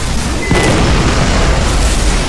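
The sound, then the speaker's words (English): A weapon explodes on striking an airfield, a heavy, deep boom that surges after a brief sharp blast and rolls on as a dense, loud roar to the end. “Auditory data, an inchoate mass of noise, swiftly parsed into channels again, stored, analyzed. Primary explosion,”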